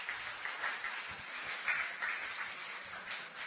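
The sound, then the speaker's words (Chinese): A church audience applauds in a steady, faint, even wash of clapping that holds throughout with no clear peaks. “你给掌声身边的弟兄姊妹。”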